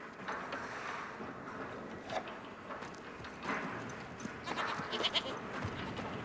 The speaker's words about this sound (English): Opening the gate, he enters the pen and begins ushering the goats out into the open.